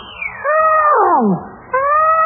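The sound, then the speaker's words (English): Voices imitating a herd of elephants trumpeting make a loud, howling blare that swoops steeply down in pitch, then a second call cuts in on a steady, held tone. “I vote for a whole herd of elephants.”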